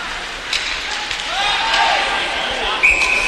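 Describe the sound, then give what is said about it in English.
A referee's whistle stops play after a high stick in an ice hockey game, a short, high blast near the end over steady crowd noise. “Puck knocked down with a high stick. A whistle and a stoppage in play.”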